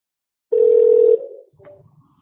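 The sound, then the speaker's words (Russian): A single steady electronic telephone tone sounds on an automated debt-collection call while waiting to be connected to an operator. It is one loud, even, mid-pitched beep lasting a little over half a second, then fades into a faint low rumble. “Пожалуйста, ожидайте соединения с оператором.”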